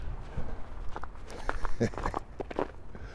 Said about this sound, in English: God, I don't think you've ever heard my footsteps quite so vigorously